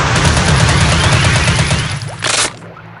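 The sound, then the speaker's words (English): Machine gun firing in a game, a dense rapid burst of loud shots rattling without pause, capped by a short sharper burst just before it cuts off. “Machine gun.”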